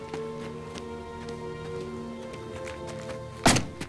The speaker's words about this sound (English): the Russian guard knocks him out with his rifle butt, sending him rolling to the water's edge.